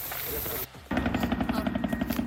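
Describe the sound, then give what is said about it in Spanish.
Helicopters work over a wildfire. A brief burst of broad noise gives way to the steady, rapid, rhythmic chopping of rotor blades, loud and continuous. “solamente los helicópteros que llevan 15 minutos actuando”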